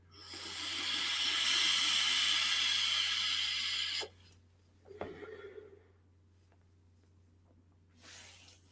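Vapour hisses steadily as a vape mod fires at its 80-watt maximum with good wicking, a broad sustained hiss lasting about four seconds before cutting off, followed by a couple of faint clicks and a shorter, quieter hiss near the end.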